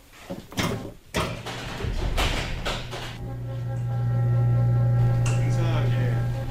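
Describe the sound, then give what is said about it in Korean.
An amateur astronomer's observatory roof slides open, starting with a few knocks and clunks and then settling into a steady mechanical motor hum that swells and holds. “이제 천문대 뚜껑을 지붕을 열어요.”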